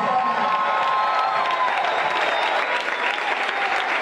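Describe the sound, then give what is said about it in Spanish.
A church audience claps during a worship service, a loud, even roar of many hands that holds steady throughout, with crowd noise blended into the applause. “Vamos, aplaudan.”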